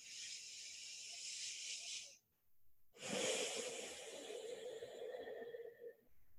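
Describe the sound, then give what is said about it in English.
Deep breathing through the nose during a guided relaxation exercise: two long, soft, airy breaths, each lasting a couple of seconds, separated by a short silent pause. “taking a nice few deep inhales in through the nose.”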